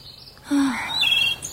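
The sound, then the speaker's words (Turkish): Birds calling outdoors amid green countryside under a clear sky: a few short whistled chirps and sweeping notes, some rising and falling, over a faint, steady background hiss. “Sanki kuşlar bile burada daha bir farklı ötüyor.”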